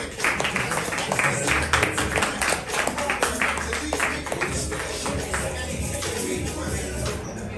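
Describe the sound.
Crowd applause greets a comedian introduced at a comedy show, a loud, dense patter of clapping that stays fairly even throughout and softens a little in the final seconds.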